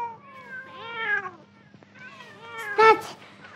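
Several cats meow while waiting to be fed. A string of wavering, rising and falling meows overlaps, ending in a louder, harsher cry.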